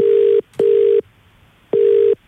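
Telephone ringback tone heard while calling a contest winner: three steady, low-pitched tone bursts, the first two close together and the third after a longer gap, loud and alone.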